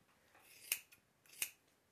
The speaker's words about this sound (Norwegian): Nå klipper jeg genseren nå. Det var luggen der du klippa av.